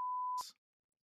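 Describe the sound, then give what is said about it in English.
A censor beep: one steady, pure mid-pitched tone that holds evenly for under half a second, then breaks into a short burst of hiss before silence. “the first beep of the episode right at the end”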